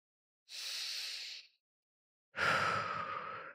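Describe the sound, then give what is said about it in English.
A deep breath drawn in and let out: a long, airy inhale of about a second, a short silent pause, then a fuller, lower, sighing exhale. The breathing is quiet and stands alone. “Man, I have to take a really deep breath”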